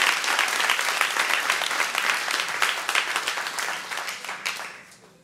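A church audience applauds with a dense burst of clapping that stays strong at first, then thins and fades out toward the end.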